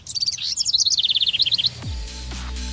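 Many rapid, high-pitched bird chirps and tweets in quick succession, loud and steady, then they stop and a low falling tone settles into a steady low hum.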